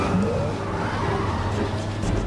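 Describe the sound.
A car skidding out of control in a tense moment of reckless driving: a loud, continuous roar of tire and engine noise that holds steady for about two seconds, with no voices.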